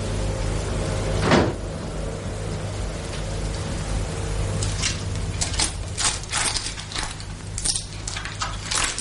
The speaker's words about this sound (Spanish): Repite la misma acción con la puerta del armario contiguo y coge una caja de puros del estante de arriba.